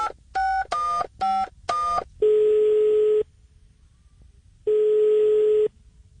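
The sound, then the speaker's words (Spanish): Telephone keypad tones as a number is dialed to call a shop: a few quick, evenly spaced DTMF beeps, then two long, steady ringing tones separated by a pause, with no talk. “quiero llamar a la tienda de Don Chepe eh, a ver cómo va. Eh, márquele ahí, por favor”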